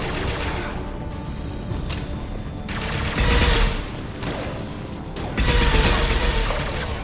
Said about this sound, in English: This ice ammo is awesome. You get him, you get him nearly down, and they freeze in place because of the ice.